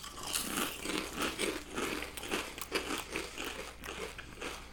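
Crunching of bourbon barbecue chips being bitten and chewed: many quick, crisp, crackly bites in an uneven but steady rhythm, faint and with no talking.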